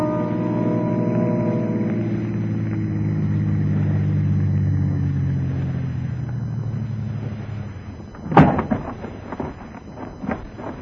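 A car engine runs with a steady, low droning hum for about eight seconds. A sharp, loud bang follows, then a few lighter knocks.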